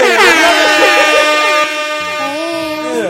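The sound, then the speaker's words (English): An air horn tooted in loud, blaring harmonic blasts, a held honk followed by further wavering toots, with no talk over it. “Stop tooting your fucking horn over there.”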